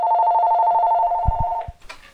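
A telephone ringing with a steady electronic tone that holds for about a second and a half before cutting off, followed by a few low thuds.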